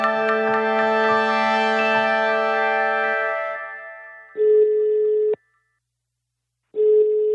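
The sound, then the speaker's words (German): An outgoing telephone call rings out. A sustained buzzing tone rich in overtones comes first, then two flat, even ringback tones of about a second each, separated by a pause of silence. “Aber dann lass uns doch einfach direkt mal eine Expertin anrufen”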